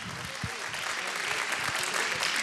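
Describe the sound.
Audience applause for a singer and orchestra at a music performance: a dense, even wash of many hands clapping, fairly faint and steady throughout.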